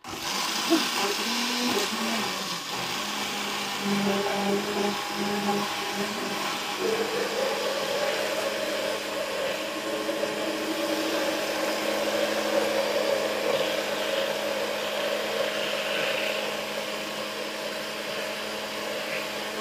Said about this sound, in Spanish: Vale, pues se va a batir. Veremos. Ah, Hay que ponerlo de arriba para ver cómo se bate